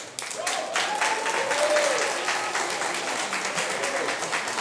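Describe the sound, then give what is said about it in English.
An audience claps in steady, dense applause to welcome the young singers of the Young Bulgarian Voices choir, who perform songs with a bagpipe, before their set at a concert. “with applauses our young singers from Young Bulgarian Voices. They will be singing songs with a bagpipe. Please welcome them.”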